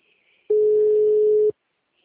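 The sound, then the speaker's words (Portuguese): A WhatsApp call ringing tone on a phone sounds as a single steady, mid-pitched beep lasting about a second, starting and stopping abruptly against near silence. “Aí eu tô chamando o WhatsApp. A maioria só chama. Atende.”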